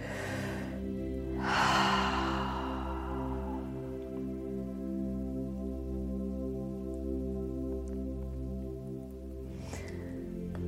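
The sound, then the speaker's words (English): A single deep inhale during a guided relaxation, rising clearly early on over a steady, sustained droning musical tone that continues throughout, with a fainter breath near the end. “When you're ready, just taking a nice deep breath again.”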